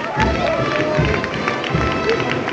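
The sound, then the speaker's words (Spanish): Spectators applaud a Holy Week procession float as its bearers carry it forward in Jaén. A steady wash of clapping and murmuring voices runs over a regular beat of low, heavy thuds. “hace avanzar a paso redoblado al señor ante los aplausos del público.”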